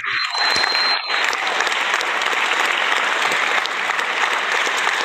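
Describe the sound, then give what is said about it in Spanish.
Audience applause welcoming a guest to an interview, dense, loud clapping that starts abruptly and holds steady throughout. “un fuerte aplauso al Máster Baldur, que ahí está, está con nosotros. Bravo.”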